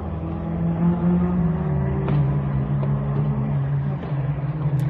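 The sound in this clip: Car engines rev during illegal night-time street racing on a near-deserted industrial estate. A loud, steady drone runs throughout, and its pitch dips partway through.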